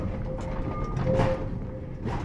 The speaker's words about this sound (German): Es quietscht, ruckelt und zuckelt. Die Sitzbänke der alten Triebwagen sind aus hartem Holz.